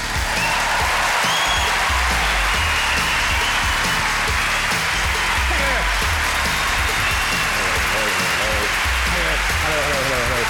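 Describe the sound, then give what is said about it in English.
A theatre audience applauds a comedian coming on stage at the Theatre Royal, a loud, sustained roar of clapping that stays dense for the whole stretch, with voices rising above it. “Please put your hands together and welcome on stage Dara O'Briens.”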